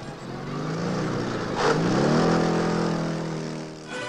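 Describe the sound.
A car pulls away and drives off, its engine revving and rising in pitch as it accelerates. The sound swells from a steady hum into a louder surge midway, then eases slightly at the end.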